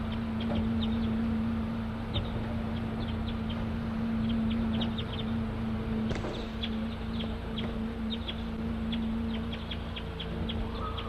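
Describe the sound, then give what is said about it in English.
A flock of wild crossbills gives many short, high chirping calls that repeat throughout, scattered over a steady low hum. “The recording of Flock of Wild Crossbills just came in.”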